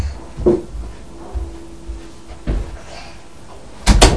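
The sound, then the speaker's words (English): A door that had been sticking is pushed shut: a few dull knocks and bumps, the loudest and sharpest at the end. Faint movement sounds lie between the knocks. “That's it, now shut the door, see if it shuts. I think it will shut now.”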